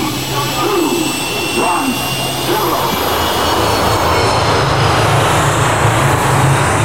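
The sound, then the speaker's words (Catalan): Jet airplane taking off, heard as a loud, continuous engine roar with a thin high whine sitting above a broad rushing rumble, holding steady for the whole stretch. “Som a punt d'enlairar-nos cap a les 7 llunes màgiques.”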